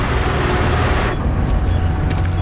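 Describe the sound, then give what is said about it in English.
Truck passing close along a street, a loud, broad roar of engine and road noise with a heavy low rumble that shifts in character partway through, with no voices. “Finding a truck bearing down on him, he lies flat on the pavement. When the truck is gone, so is Neil, clinging to the bottom of the truck.”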